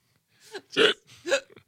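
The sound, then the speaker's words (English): A person hiccups three times, short throaty voiced jolts spaced roughly half a second apart, the middle one loudest, followed by a faint breathy catch. “Now I got the hiccups.”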